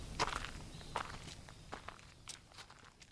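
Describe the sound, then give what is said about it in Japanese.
Footsteps crunch steadily up a gravel path climbing a hill toward a summit stone site in Miyama, Japan. The evenly spaced, quiet steps run throughout. “砂利道がずっと続いていますその道を登っていきます”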